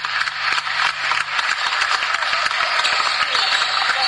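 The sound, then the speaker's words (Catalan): Applause at the Sant Josep pavilion for retiring basketball player Sergi Baldó: dense, steady clapping from a crowd with scattered sharper claps, continuing for the whole stretch. “aquests són els aplaudiments que ahir rebia Sergi Baldó al pavelló de Sant Josep”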